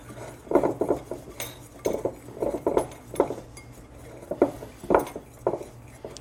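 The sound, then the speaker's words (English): A whisk stirs blended oatmeal into white cookie ingredients in a bowl, producing many quick, uneven metallic clinks and scrapes in a steady rhythm, with no talk. “now let's dump the blended oatmeal in there with the white ingredients and whisk that around.”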